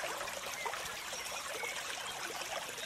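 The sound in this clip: A small stream flows with a soft, even rush of water, steady and unbroken, its faint trickling gurgle staying constant throughout without any other sounds.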